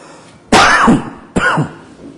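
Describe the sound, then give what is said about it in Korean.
Two loud, sharp coughs, the first longer and raspier, the second coming about a second later, with quiet between them. “분을 냈더니 기침을 막 하게 만드네요.”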